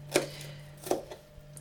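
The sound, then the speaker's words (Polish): Knife chopping onion into fairly thick strips while making goulash: two sharp, clear chops followed by a few fainter taps, with a steady low hum underneath. “kroję cebulę nie w w kostkę, tylko w troszeczkę grubsze paski.”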